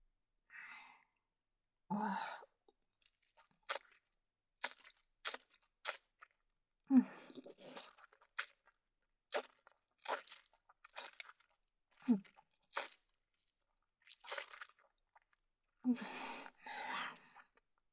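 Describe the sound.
Crunchy green plant food is chewed in many brief, quiet crunches and wet mouth sounds against silence, with a few breathy exhales between bites.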